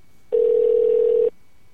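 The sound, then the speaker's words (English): A single steady ring tone from a telephone call placed to someone's desk line, about one second long, clear and evenly pitched against quiet. “Maybe he's at his desk. At 7:43. Maybe it rings to his cell phone.”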